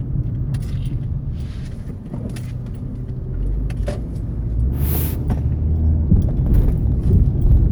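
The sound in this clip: A car driving to work gives off a steady, loud low-pitched road rumble throughout, with a few faint clicks and light rattles on top and no talking.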